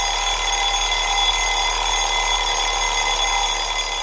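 An alarm clock rings without pause: a loud, steady, high-pitched electronic tone holds at an even level for the whole stretch, with no voices.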